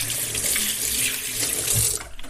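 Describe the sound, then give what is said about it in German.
Water running steadily from a tap into a washbasin sink, a continuous bright splashing hiss that holds at an even loudness with no talk over it. “Moment, ich muss mal kurz ans Waschbecken.”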